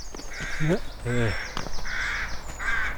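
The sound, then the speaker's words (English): Rooks cawing at a rookery along a canal: a few harsh, rasping caws come in close succession, with people talking over them. “We've got a rookery here.”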